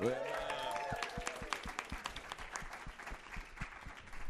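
Audience applause and clapping for a New York-based comic being welcomed onto a comedy show, a dense, steady patter of many hands lasting about four seconds without a break.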